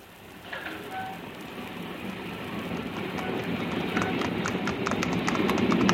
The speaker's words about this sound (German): Achtung, Achtung, der Schnellzug nach Southampton fährt ab.